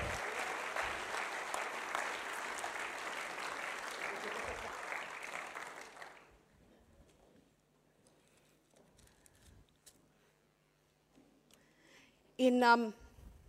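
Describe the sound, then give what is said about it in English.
An audience applauds in dense, steady clapping for about six seconds before it fades to near silence, then a short, loud cheering shout bursts out near the end. “Let's give a hand to the giants and the Philistines and the... Yay! Woo!”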